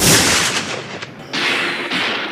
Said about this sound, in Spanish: Dispara su rifle y los españoles se replican con una lluvia de balas desde sus posiciones a uno y otro lado del camino.